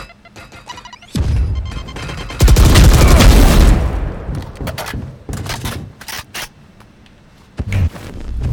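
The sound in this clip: Grenade blast in a team shooter video game: a loud, rumbling burst lasting over a second, followed by a few scattered sharp bangs.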